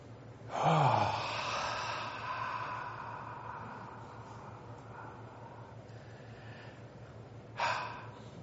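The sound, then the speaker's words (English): An audience at a church service drawing a big deep breath together, a loud rushing intake that trails off slowly into a long breathy wash, with another short breath near the end. “I want to ask everyone right now to just take a big deep breath. All right? Let's take a big deep breath.”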